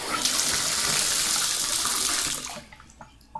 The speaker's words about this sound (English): You also turn on the shower head. Yep, this is one shower head. I think I'll turn it off now.